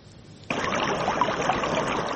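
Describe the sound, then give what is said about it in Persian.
A small stream flows near the village of Adeli in Vahdat district, a steady rushing wash of water that starts abruptly and then runs on evenly. “آبی این جویبارک خرد و نظرناگیر باعث تشویش جدی تعداد از ساکنان دهه عادلی ناحیه وحدت شده است”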